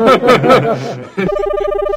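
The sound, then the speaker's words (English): After people talk, a Polycom video conferencing phone starts ringing with a steady electronic trill that pulses quickly and evenly at a fixed pitch. “Is that our video phone ringing?”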